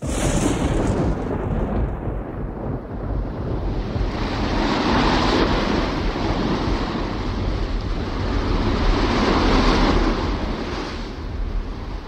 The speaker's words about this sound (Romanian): Marea furtunoasă, valuri uriașe și pe creasta lor e o corabie pe care furtuna o aruncă încoace încolo ca pe coajă de nucă.